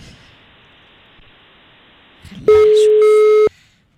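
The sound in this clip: A phone call connecting on the line: faint low noise gives way to a single loud, steady electronic tone with a buzzy, harmonic-rich edge, held for about a second before cutting off.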